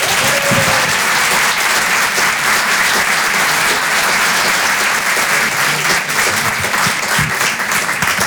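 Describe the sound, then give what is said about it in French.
Audience applause greets a comedian at a stand-up comedy show: dense, loud, continuous clapping that holds steady at full level for the whole stretch. “Faites un maximum de bruit, s'il vous plaît, pour Aymeric Carré.”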